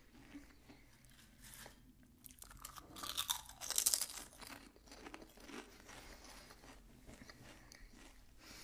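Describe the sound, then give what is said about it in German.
Crunching and chewing of plain potato chips, quiet throughout, with two louder crisp crunches near the middle and softer, steady chewing before and after. “Also, als erstes die normalen Chips. Die habe ich noch nie gegessen. Also, erstmal essen.”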